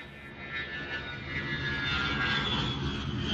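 Steady ambience on the departure level of an airport: a continuous broad roar like aircraft engine noise that stays even and slightly swells toward the end, with no voices.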